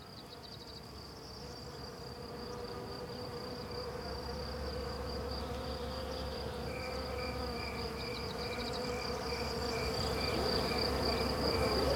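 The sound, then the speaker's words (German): Swarms of wild bees hum in a dense, continuous buzz, with a thin, sustained high tone woven through it. The sound grows slowly louder over about twelve seconds. “Es ist das rhythmische Flüstern der Bäume. Es sind die von Millionen wilder Bienenhorden gesummten Akkorde.”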